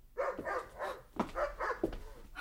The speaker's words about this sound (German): Da ist wieder dieser verdammte Köter draußen. Man hat mir gesagt, ein Hirtenhund aus der Maremma.